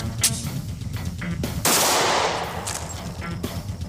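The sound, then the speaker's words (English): A single gunshot from a 9mm handgun: one sharp, loud report that rings out into a long decaying tail, surrounded by a few smaller clicks and thumps. “We'll be firing one shot out of here. This is a 9mm.”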